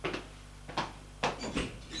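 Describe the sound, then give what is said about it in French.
A door off a hallway being opened, heard as a few short, fairly faint clacks and knocks from the handle and latch, spaced apart with quiet between them. “Et il va ouvrir la porte.”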